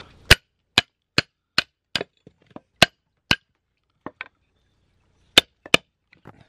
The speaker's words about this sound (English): So I've got a couple of logs that are a little bit big for our fire, so I'm just going to split them.